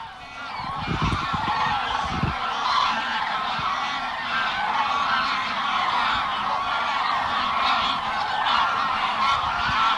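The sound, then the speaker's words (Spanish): Trumpeting calls of a large flock of common cranes returning to roost after dusk: a dense, continuous chorus of overlapping bugling notes that holds a steady, loud level throughout. “Un ejemplo, este ejemplo es con las grullas, ¿no?”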